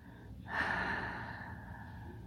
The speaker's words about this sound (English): Breathe in through your nose. Hold. Breathe out through your mouth.